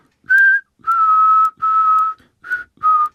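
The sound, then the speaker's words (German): A melody from a German children's song is whistled in a minor key. It has five clear, sustained notes with short gaps, the middle ones held longest, and no talk. “Hänschenklein in Moll würde jetzt so klingen.”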